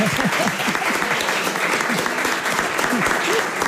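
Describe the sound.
Applause on a television programme for a guest's mother: dense, steady clapping that stays at an even level for nearly four seconds.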